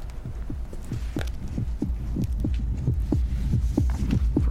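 A pounding heartbeat sound effect in an audio drama: many fast, steady, deep thumps over a low hum, without talk.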